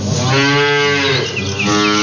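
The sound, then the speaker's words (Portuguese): A dairy cow moos at morning milking time, one long, loud, sustained low bellow that fills the whole moment. “Vamos dar bom dia pra Mimosinha, porque tá na hora do leite. Mimosinha, bom dia.”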